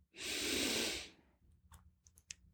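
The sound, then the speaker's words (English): One deep, airy breath in during a guided relaxation exercise, a smooth hissing inhale lasting about a second that swells quickly and tapers off, followed by near quiet with a few faint, soft clicks. “I want you to close your eyes and relax. If you are driving, please keep your eyes open. I just want you to take a deep breath in.”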